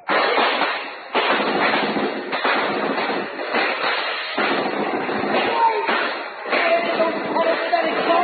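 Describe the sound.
Gunfire in a shootout near a cave, with dense, loud volleys of shots that run almost unbroken through the whole stretch and ease only in brief dips between bursts.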